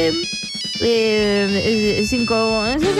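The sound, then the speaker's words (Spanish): Ringing on an outgoing telephone call: a quick run of short, even pulses gives way to sustained, bright electronic tones that waver slightly in pitch and continue to the end. “Y vamos a empezar a llamar por teléfono.”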